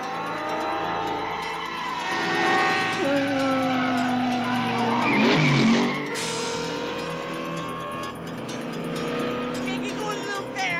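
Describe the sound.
A fake race car engine sound effect, likened to a NASCAR noise, with whining engine pitches that glide up and down and a harsh, skid-like screech midway, running loud throughout with voices at times.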